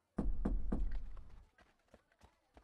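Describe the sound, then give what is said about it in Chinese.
Knocking on a door: three loud, evenly spaced thuds in quick succession, followed by a few much fainter taps. “这时敲门声响起”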